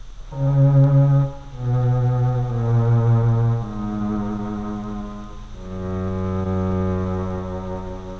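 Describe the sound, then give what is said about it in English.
An electronic instrument plays the lowest part of a string quartet in a dark, cello-like timbre. A few long, sustained low notes follow one another at a steady, moderate volume. “When I played the lower parts, which in a real string quartet would be taken by the larger members of the violin family, I darkened the timbre progressively, until for the lowest part, I thought a cello-like sound was being produced by the electronic instrument.”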